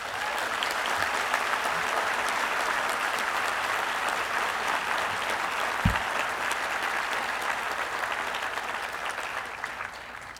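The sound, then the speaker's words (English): Steady, sustained applause from an audience welcoming new first-year and transfer students at Reed College. A dense, even wash of clapping holds at a constant level throughout. “399 first-year students and 24 transfer students enroll at Reed this fall. Let's give them a hand.”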